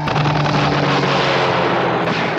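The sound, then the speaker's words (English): Gunfire in a staged military attack on a coast guard station, heard as a dense, loud, unbroken roar of blasts and low rumble in which separate shots do not stand apart. “Get a gun! Get the gun! Got a gun. And he fires it.”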